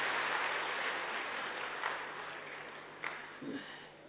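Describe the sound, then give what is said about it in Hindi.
Applause from an audience at a spoken gathering: dense, steady clapping that runs the whole time and slowly thins toward the end, with a few slightly louder bursts near the close. “ठीक है ताली से बजा”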